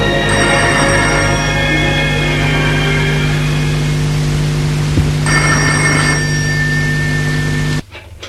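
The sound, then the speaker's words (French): A telephone bell rings in two bursts, a longer ring and then a shorter one after a pause, over a steady low background hum. “Allô, oui. C'est un appel téléphonique de Laurent”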